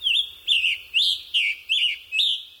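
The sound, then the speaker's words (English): Birdsong attributed to a rose-breasted grosbeak and a scarlet tanager in Chicago: six short, high, burry whistled phrases delivered alone at an even, steady pace, each roughly half a second apart. “let the Chicago Birding Trail introduce you to the songs of the rose-breasted grosbeak and the scarlet tanager”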